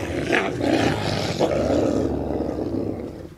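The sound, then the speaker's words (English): Deep, continuous growling and snarling from two captive wolves snapping at each other in their outdoor pen at a wolf center in Ely, Minnesota. The rough, throaty noise carries steadily throughout with no pause. “At the International Wolf Center in Ely, two captive wolves growl and snap at each other in their outdoor pen”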